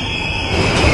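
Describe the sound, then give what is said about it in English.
Underground trains in a station: a steady, loud rumble with a thin, high wheel squeal running through it, growing slightly louder toward the end, with no voices. “Trains! Underground!”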